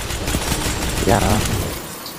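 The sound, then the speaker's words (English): Rapid gunfire in a multiplayer shooter video game match with Titans, a dense, loud and continuous burst with heavy bass. A voice briefly sounds over it midway. “My god, bro, that bass is so stupid. That gun is stupid, bro.”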